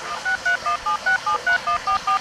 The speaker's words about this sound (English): I think I got him on speed dial on my cell phone.